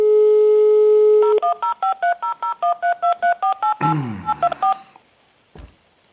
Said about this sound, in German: da müssen lange Telefonnummern gewählt werden